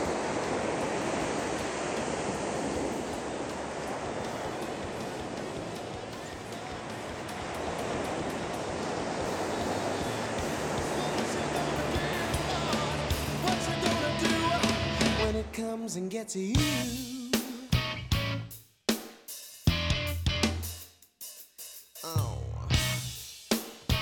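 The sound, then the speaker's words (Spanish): Sea waves on the coast make a steady, broad wash of surf for about fifteen seconds, then give way to choppier, broken sounds. “estoy hoy en un lugar de costa, y bueno, espero que se oiga un poquito las olas de fondo.”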